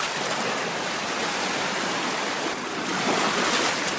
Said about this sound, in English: The sound of the waves running to meet the soft sand on the beach